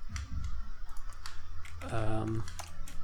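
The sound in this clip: Notes typed on a computer keyboard: scattered, irregular key clicks, briefly joined by a voice speaking.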